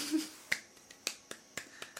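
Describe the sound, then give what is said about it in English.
Crowd at a Ring of Honor wrestling event clapping in unison, a run of crisp, evenly spaced claps in a steady beat, fairly faint, with no voices over them. “Well, that's a lot of clapping.”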